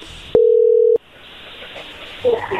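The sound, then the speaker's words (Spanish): A telephone ringing tone sounds as a call is placed, heard as one steady, mid-pitched tone lasting about half a second, followed by quiet line hiss and faint noise. “Vamos a marcarle entonces a Alonso, a María Luisa y a ver qué sucede”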